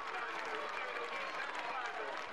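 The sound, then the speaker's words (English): Cheering throngs at the race of the saints in Gubbio, Italy, where statues of three saints are carried aloft through medieval streets; a dense, steady roar of crowd noise holds at an even level throughout with no distinct words. “The actual saints rest in peace, but the statues of three saints are borne aloft through the medieval streets in cheering throngs.”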